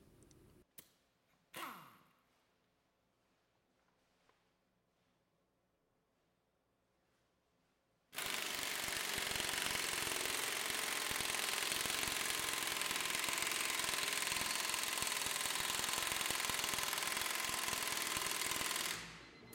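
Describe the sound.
A Thor impact wrench hammering a bolt during a torque test: after a quiet stretch with a few faint knocks, a loud, continuous rattling burst runs for about eleven seconds and then stops.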